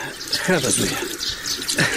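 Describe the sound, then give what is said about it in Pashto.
Water is poured over a father's hands for washing before a meal of tea and hot parathas, a continuous splashing trickle with small surges. Voices talk over the running water. “دروشه راځئ لاسونه مو مینځئ، له چای سره مې ښې تودې پراټې هم درته راوړي دي. پلار جانه لاسونه دې ونیسه چې اوبه در واچوم.”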